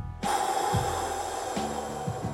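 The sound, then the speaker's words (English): A long exhale through the mouth during a breathing meditation: a steady, airy rush that begins just after the start and carries on almost to the end at an even level. “Now inhale. Exhale, mouth.”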